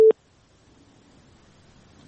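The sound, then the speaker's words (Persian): A telephone tone sounds after a dropped call: one short, loud beep at the very start, followed by near silence. “بله متاسفانه تماس آخوندزاده صاحب قطع شد، تماس بعدی را میگیریم.”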